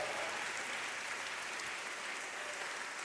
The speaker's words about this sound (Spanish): adórale al Señor con un aplauso fuerte.